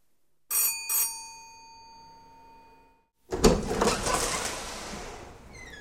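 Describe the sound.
A doorbell rings twice, two bright metallic strikes whose tones ring on and slowly fade. A burst of broad noise follows after a short pause.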